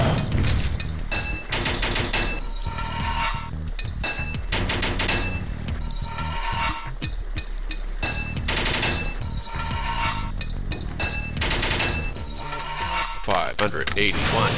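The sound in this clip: Rapid gunfire from a video game as spiders are shot, a dense, loud barrage of overlapping bursts that runs almost without pause through the whole stretch.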